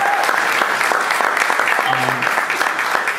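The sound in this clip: An audience breaks into applause, with dense, even clapping that holds at a steady loudness throughout. A brief voice cuts in near the middle.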